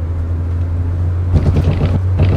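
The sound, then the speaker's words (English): A car driving along a road at night, a steady low engine rumble and road hum that continues throughout, joined partway by irregular bumps and rattling thuds over the drone. “This is the sound of someone driving along a road at night.”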